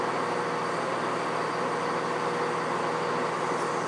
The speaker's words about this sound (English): But that's a train on the platform on the other side, I think, that you can hear now.